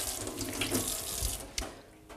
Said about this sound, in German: wasche mir kurz die Hand